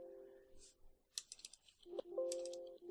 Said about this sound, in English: Okay, let me just type in villains.